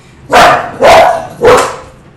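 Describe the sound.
Dogs barking indoors: three loud, evenly spaced barks in a steady rhythm, each bark full and rough-edged.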